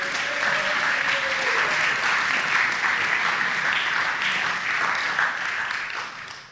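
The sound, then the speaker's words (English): Audience applause for a storyteller at a live storytelling show: dense, steady clapping from a crowd that holds at an even level throughout and tapers slightly at the very end. “Please put your hands together for Mel Hammond.”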